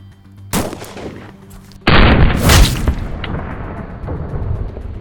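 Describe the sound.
A loud, sharp gunshot from firing a Speer Gold Dot 40-grain round, a heavy blast with a long rumbling tail standing out from lower background noise.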